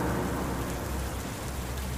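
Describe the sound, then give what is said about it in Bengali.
Heavy rain pours down in a dense, unbroken hiss of countless drops, loud and even throughout with no pauses. “এত জোর বৃষ্টি হচ্ছে তাতে একটা মাথা মোজার জায়গা তো লাগবেই”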